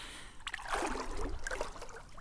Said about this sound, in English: And I'm attempting to swim one-handed so that I can record. Oh, it's just perfect.